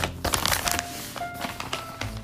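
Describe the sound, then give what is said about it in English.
A paper shopping bag being folded up, with crisp crinkles and rustles coming in quick, uneven bursts at a fairly quiet level. “let me fold up this bag so that I can use it when I'm gifting this Christmas”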